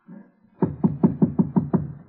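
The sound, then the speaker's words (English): Knocking on the door of a flat: seven sharp, evenly spaced raps in a quick, steady rhythm, fairly loud, with no voices. “Knock.”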